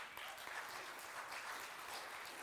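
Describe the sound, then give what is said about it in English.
Audience applause for a newly engaged couple, a soft, continuous patter of many hands clapping at an even level without a break. “we got newly engaged right here. Congratulations. Let's give him a hand.”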